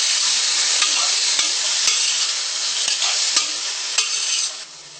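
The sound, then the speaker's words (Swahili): Tomatoes and onions sizzle in a cooking pot as they're stirred, a steady loud frying hiss punctuated by several brief scraping knocks of the spoon, easing slightly at the end. “Unakoroga pia kwa namna hii, mpaka zisikizane na kitunguu.”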